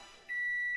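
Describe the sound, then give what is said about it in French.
A single electronic microwave-oven beep closes a jingle: one steady, high, pure tone held for about half a second, then cut off cleanly. “Est-ce que c'était le bruit du micro-ondes à la fin dans le jingle? Ben oui, si c'était le bruit du micro-ondes.”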